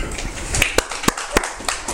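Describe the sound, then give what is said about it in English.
A church audience claps as an offering to God, with several sharp, separate claps standing out over a softer, uneven background of clapping. “Now, come on, give God a clap offering.”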